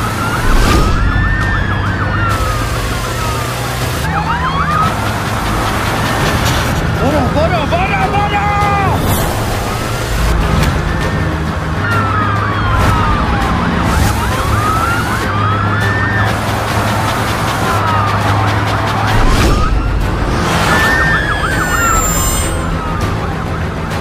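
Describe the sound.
Police car sirens wail loudly and continuously, sweeping up and down in repeating cycles over rumbling engines, during a chase in which police cars block a side road.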